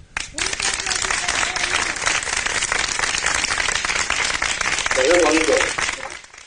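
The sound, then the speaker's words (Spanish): Dense, sustained applause from a crowd thanking professionals working on-duty shifts, with steady clapping for about six seconds and a brief vocal cheer rising near the end. “Es bonito, la verdad, de que devolvieran ese aplauso, sí.”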